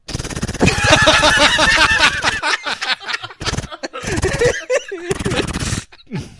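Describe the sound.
Rapid bursts of gunfire crackle in quick succession, with voices talking and laughing over and between the shots.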